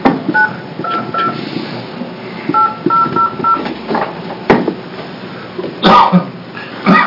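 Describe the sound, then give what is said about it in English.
A landline telephone keypad dials a number, producing several short electronic touch-tone beeps in separate bursts over a background of low rustling and handling noise. “let's try the landline also. So it's 2, 9, 1, 2.”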